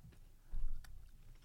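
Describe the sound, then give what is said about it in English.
Faint, crunchy chewing of a chocolate biscuit, a short burst of soft crackling bites with one louder crunch in the middle, with no talking. “It's chocolatey, it's biscuity. Yeah, it's all fine. It says may contain nuts, but I like to live dangerously.”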